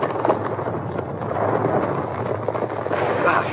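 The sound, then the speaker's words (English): An avalanche of ice and rock set off by gunshots, performed as a radio drama effect, rolls as a loud, sustained, muffled roar that swells slightly and keeps rumbling without a break. “Up above him. Those rocks. Those shots started an avalanche.”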